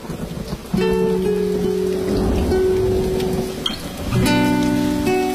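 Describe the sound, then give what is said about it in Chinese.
Steady rain hisses as a broad, even wash of noise beneath sustained musical tones that swell at the start and again near the end. “真的又下雨了，还有雷声”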